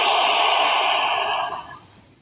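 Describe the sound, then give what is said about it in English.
A deep, slow breath out during a calm guided relaxation exercise, heard alone as one long airy whoosh that holds steady and then fades away. “And out. Breathe in. Keep your body calm. And out.”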